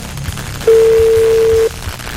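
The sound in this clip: Ringback tone of an unanswered phone call that goes to voicemail: one steady mid-pitched tone about a second long, loud over faint low background noise.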